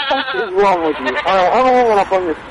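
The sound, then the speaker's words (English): Goat bleating: loud, wavering, nasal cries in a few quick bursts, each rising and falling slightly in pitch, with no other voices. “goat.”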